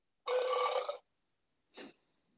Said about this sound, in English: That was a burp from a burp machine.